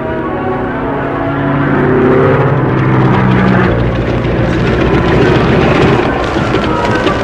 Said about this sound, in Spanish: La avioneta descendía con el motor fallando. Rosco, piloteando hábilmente, controlaba el aparato para lograr un aterrizaje forzoso en aquel claro de la selva.